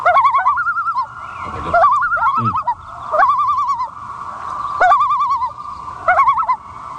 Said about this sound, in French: On sent, c'est une série de notes très rapides. On sent que c'est un cri d'alarme. Donc, quand on entend ça, l'oiseau se sent menacé par un prédateur ou dérangé,